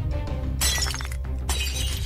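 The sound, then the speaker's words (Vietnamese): A beer bottle smashed down onto a table shatters, giving two bright crashing bursts of breaking glass over a low steady background. “Thằng Tuấn Anh cầm chai bia đập mạnh xuống bàn, mảnh thủy tinh văng tung tóe. Xoảng một tiếng,”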